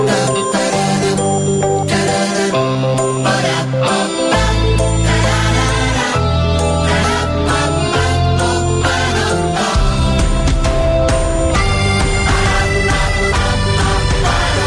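Music from a Catalonia tourism promotion advert, a cover of a classic Catalan song, played loud throughout by a full band with heavy bass, bright chiming tones and a steady driving beat.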